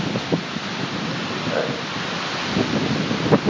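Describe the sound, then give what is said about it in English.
Outdoor wind buffeting a microphone, a continuous rushing, rumbling roar with low booming gusts that swell and ebb, including a stronger burst near the end. “This wind is really fun to talk over.”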